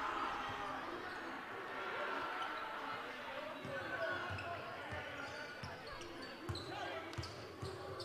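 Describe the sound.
A basketball is dribbled during a high school district semifinal game, with low, quiet thuds repeating in a loose rhythm, mostly in the second half, under a steady murmur of crowd noise.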